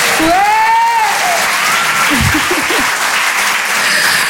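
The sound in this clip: Audience applause and cheering: steady, dense clapping runs through the whole clip, with a few whoops rising over it.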